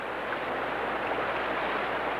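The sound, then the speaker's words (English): A flowing river: a steady, even rush of water noise that holds constant throughout, with no talk or other events. “Once we cross this river, we move with caution.”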